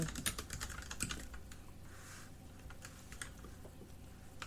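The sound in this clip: Typing on a computer keyboard: a run of many quick, light keystrokes in an uneven rhythm, fairly faint and steady throughout, with no voices.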